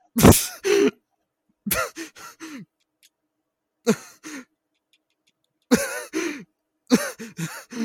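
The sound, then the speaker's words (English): Labored, struggling breathing from a person, with many throaty gasps, groans and rasping bursts coming in uneven clusters between short silent pauses, fairly loud and alone without talk. “You struggling to breathe there? What's going on?”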